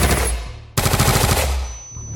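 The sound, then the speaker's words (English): Loud, dense rattle of rapid police gunfire aimed at fleeing protesters in Sharpeville, already heavy at the start and then bursting into a sharper, more intense volley that dies back slightly toward the end, with no voices heard. “The retreating protesters are still being fired on by the police.”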